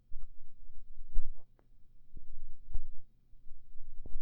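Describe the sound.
Dull, low heartbeat thumps from a nervous, pounding heart, a few soft irregular pulses over a steady low rumble, with no talking.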